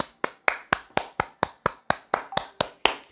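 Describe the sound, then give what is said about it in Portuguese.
A single person claps in applause for São Paulo's anniversary: about a dozen sharp, evenly spaced claps in a steady, moderately loud rhythm, with no voices. “Vamos bater uma palma aqui para São Paulo.”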